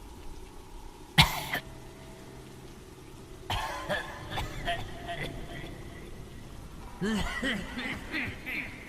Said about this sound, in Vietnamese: Tiếng ho kỳ dị kia lại vang lên một chập. Lần này tiếng ho nghe rợn cả người